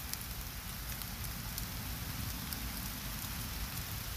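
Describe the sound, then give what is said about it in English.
Rain patters steadily, with dense, even droplets and faint crisp ticks scattered through a continuous soft hiss. It stays at a constant low level throughout, with no voices. “the pitter-patter the drops of the rain.”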